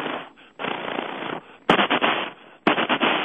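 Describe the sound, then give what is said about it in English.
Bursts of M16 and M1 rifle gunfire roll out as dense, rapid rattling volleys, several loud sustained stretches of shots separated by brief gaps. “What is that? That's the M16 and the M1. Now here's a submachine gun.”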